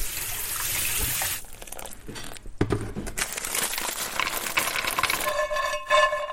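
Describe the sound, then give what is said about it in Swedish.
Walnuts roasting in a pan for a traditional kutia, heard as uneven rustling, scraping and crinkling as the nuts are stirred. The noise is fairly soft and continuous, with brief lulls and a few sharper scrapes. “Nu rostar jag valnötterna här så att de blir riktigt goda.”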